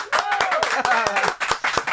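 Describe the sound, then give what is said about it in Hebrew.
Clapping in a radio studio: a few people clap in uneven, sharp slaps while voices call out and talk over them, and the claps come at an irregular rhythm throughout. “כפיים.”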